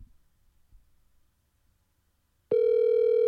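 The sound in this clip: A telephone call ringing out: after near silence, a steady electronic tone rich in overtones starts abruptly and holds loud and unbroken until the end.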